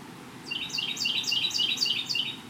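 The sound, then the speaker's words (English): Bird chirping overhead outdoors at a spot with bamboo blinds on three sides and a draped canvas roof: a rapid series of high, bright, sweeping tweets repeating steadily over a low background hum. “this location is going to be loud with wildlife, I think. Birds in particular. And it sounds like one is right over my head.”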